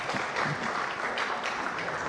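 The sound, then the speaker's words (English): A church audience clapping: an even patter of many hands that runs throughout at a moderate, fairly quiet level with no clear break. “Please just stand, don't mind, just stand. Clap for them.”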